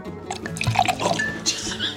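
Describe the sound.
Wine poured into a glass gives a short liquid gurgle and splash with bright, ringing tones, heard under voices.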